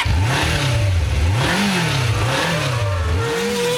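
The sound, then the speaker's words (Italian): Racing motorcycle engines rev loudly and continuously at a world championship race, their pitch repeatedly rising and falling in several surging sweeps with no pauses and no voices. “Sport e motori. Eccoci qua, brombano i motori, soprattutto quello di Jorge Lorenzo”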